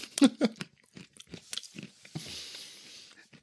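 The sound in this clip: Loud open-mouthed chewing, with wet, crunchy bites in an irregular rhythm. The sharpest smacks come early, then the sound settles into softer, hissing mastication.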